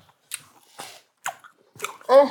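Crunchy chewing of a hot churro dipped at its cinnamon end: a few separate crisp bites and chews with short pauses between, followed by a brief voiced hum.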